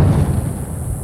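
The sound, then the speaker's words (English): Sonic boom from a plane breaking the sound barrier, heard as a loud, deep, rolling rumble that holds steady and slowly fades without a clear bang. “That's the sound of a sonic boom created by a plane breaking the sound barrier.”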